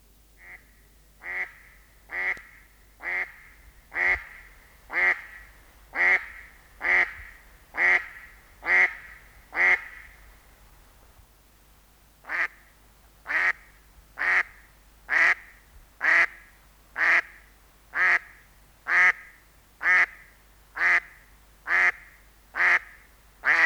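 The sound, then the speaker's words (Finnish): A female mallard duck quacking loudly in two long series of evenly spaced, nasal quacks, each series around a dozen calls, separated by a short pause. “Sinisorsa koiraalla on melko vaatimaton ääni, kun taas naaras antaa kuulua quack, quack, quack hyvinkin äänekkäästi.”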